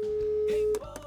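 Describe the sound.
A telephone tone sounds as a number is dialed to call a listener for a radio serenade: a steady single-pitched tone cuts off, followed by two short beeps.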